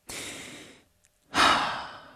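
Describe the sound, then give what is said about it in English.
A deep breath drawn in with a soft, airy hiss, then a brief pause before a louder, fuller exhale that trails off slowly like a sigh, with no talking. “Can we all just take a nice deep breath?”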